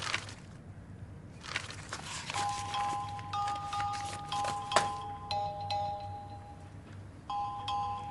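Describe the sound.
A phone rings with clear electronic tones at a steady pitch, repeating in short bursts over a quiet, rustling background.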